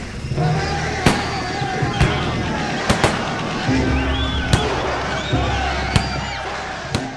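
Gunfire as soldiers open fire on a crowd in a square: several sharp, loud cracks at irregular intervals over a dense, continuous din.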